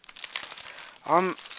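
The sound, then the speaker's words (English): Plastic wrapping crinkles and rustles as a headset is unwrapped, a series of quick, faint crackles, followed near the end by a short spoken sound. “So now, let's unwrap the headset.”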